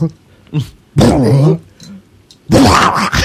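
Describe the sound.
A dog whines and whimpers in a film scene, in two loud, strained bursts separated by quieter gaps, with a few softer sounds in between.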